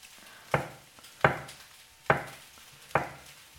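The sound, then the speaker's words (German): Four crisp knife cuts on a cutting board as food is sliced into half-centimetre slices. The evenly spaced, sharp thuds each decay quickly over a quiet background, with no talking. “Und dann schneiden wir ja so halbe Zentimeter dicke Scheiben.”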